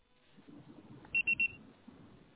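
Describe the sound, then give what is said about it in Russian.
Three quick, high-pitched electronic beeps in a row sound as the voicemail signal after a recorded phone message. They stand out sharply over a faint, low background hiss. “Пожалуйста, попробуйте перезвонить позднее, или оставьте сообщение после звукового сигнала.”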